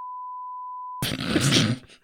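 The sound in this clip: A single steady, mid-pitched electronic censor bleep holds for about a second, then cuts off abruptly into a groaning voice.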